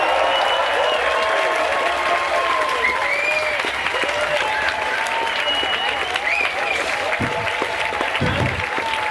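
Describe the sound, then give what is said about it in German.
Audience applause in a TV show studio for an outdoor bet: dense, loud, steady clapping that fills the whole stretch without a break. “Applaus für unsere Außenwette.”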